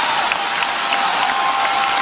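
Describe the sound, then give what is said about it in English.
Audience applause fills the whole stretch as a dense, steady wash of clapping from a crowd, even in loudness from start to finish with no breaks. “Now, that's an applause line. They like that. The kids like free stuff.”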